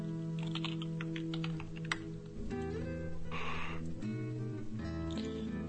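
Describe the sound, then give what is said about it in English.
Typing on a computer keyboard, a quick run of light clicking keystrokes over a steady low hum, with no talking. “I'm just typing it out.”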